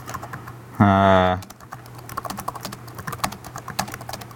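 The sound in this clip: Someone types code on a computer keyboard: many rapid, light clicking keystrokes in an uneven rhythm, following a brief buzzing tone near the start.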